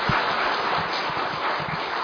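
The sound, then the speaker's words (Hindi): An audience clapping together to thank a speaker at a gathering, a dense, even wash of applause that holds steady and sounds somewhat muffled. “सब एक बार ताली बजा के दीदी का धन्यवाद करें।”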